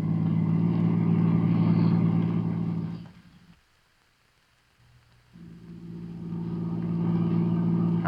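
A car engine drones in a steady low hum while the car is driven fast, fades away to near silence around the middle, then swells back to a constant rumble to the end.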